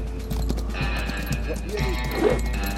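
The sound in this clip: Horse hooves clip-clop steadily as a horse is ridden in a video game, a regular thudding rhythm mixed with other game sounds and a sustained tonal background.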